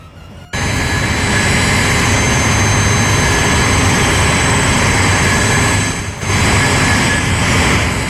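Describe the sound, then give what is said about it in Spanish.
A steady, loud roar of an airplane taking off starts abruptly after a brief moment of quiet and holds nearly constant, with a short dip in loudness shortly before the end. “Sonido de avión despegando.”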